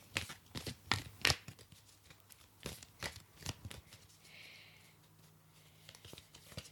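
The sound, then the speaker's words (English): Chakra oracle cards are shuffled and one is drawn, a quiet run of many soft, papery riffling and flicking sounds in uneven bursts, with no voice over them. “Spirit wants me to draw one more card. There is an overall theme here that they want me to come back to. So let me do that now.”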